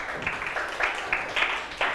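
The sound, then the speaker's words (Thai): Classroom applause from students clapping for a classmate, a soft, steady patter of overlapping claps with a few louder bursts, fairly faint throughout. “ใช่ไหมลูกปรบมือให้เพื่อน”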